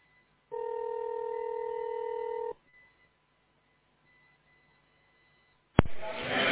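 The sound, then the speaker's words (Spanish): One long electronic telephone tone of about two seconds plays during a call transfer. A stretch of near quiet follows, then a sharp click and a burst of line noise. “Gracias por quedarse en línea. Su llamada está transferida a Rafael.”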